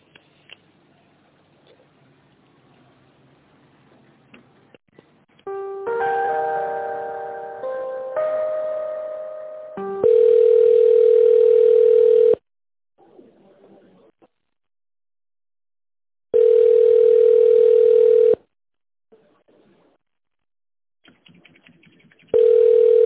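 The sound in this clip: Telephone ringback tone while a call is put through to an accounting department: a steady mid-pitched tone in three long bursts with silent gaps, the last cut off, after a few seconds of layered electronic beeps.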